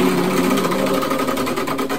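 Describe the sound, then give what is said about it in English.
A prize wheel spins with a loud, rapid, steady ratcheting clatter that runs unbroken for about two seconds, with no voices. “It's time to spin the wheel. Here we go, round and round and round.”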